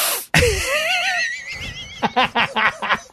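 A loud, sharp inhale squeals through the throat with a wavering pitch, then breaks into several quick, breathy pulses like laughter.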